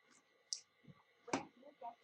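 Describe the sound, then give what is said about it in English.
A few soft, sharp mouse clicks on a play-all button for a rowing-machine video playlist. The quiet taps are spaced apart against near silence. “So if I click on play all,”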